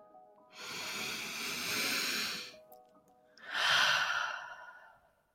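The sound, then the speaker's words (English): One person takes a deep breath, heard alone: a long airy inhale lasting about two seconds, a short pause, then a fuller, breathy exhale that trails off. “as always, let's take a deep breath.”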